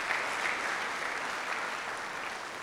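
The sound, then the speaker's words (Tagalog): A worship audience applauds to praise God, a dense, steady wash of many hands clapping at even loudness throughout, with no voices over it. “Palakpakan natin ang Panginoon, mga kapatid.”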